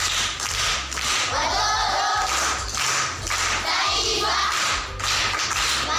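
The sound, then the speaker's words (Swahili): Applause from people clapping for a pupil at a primary school, a dense, steady wash of many hands that carries on for about six seconds with brief dips in loudness and a low hum underneath. “Makofi kwa mjomba.”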